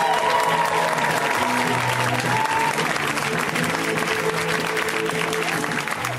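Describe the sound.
A comedy club audience applauds to welcome a comic to the stage, a sustained, loud wash of clapping that holds steady throughout with little change in level.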